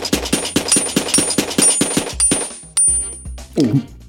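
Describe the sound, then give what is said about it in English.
A toy marshmallow gun fires rapidly, giving many evenly spaced, punchy popping bursts in a fast rhythm before the firing breaks off into scattered tonal sounds. “The Marfler gun is really fun and all”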